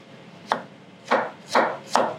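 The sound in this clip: A knife chops through food in four crisp strokes, each a short, bright crunch. The gaps shorten slightly toward the end, and there is no talk.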